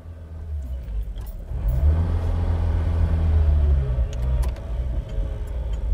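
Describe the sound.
A red Volkswagen car drives off, its engine a low, steady rumble that swells in the middle as it pulls away and then eases back slightly, with a few faint ticks on top.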